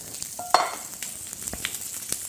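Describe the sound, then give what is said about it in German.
Food sizzling as it fries in neutral oil, opening with a sharp crackle. Scattered pops and light spitting follow over a soft hiss, and no one talks. “Aber soll auch gleich anfangen zu braten. Ne? Und da hast du auch wieder neutrales Öl genommen, ne? Dann nehme ich jetzt auch neutrales Öl.”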